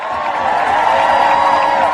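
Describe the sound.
Loud crowd cheering and applause at a political rally for a speaker from the National Organization for Women, a continuous roar of voices and clapping that stays level throughout.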